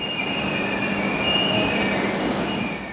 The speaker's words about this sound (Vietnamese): Những người di dân đã đáp tàu tốc hành Verona tới Munich từ trạm Brenner, trạm cuối ở Italia trong vùng biên giới núi non của nước Áo.